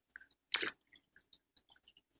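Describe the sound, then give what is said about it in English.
A quick slurping sip of espresso, one short soft burst standing alone, with a few tiny faint clicks scattered before and after it. “Taking a sip of my spiritual espresso.”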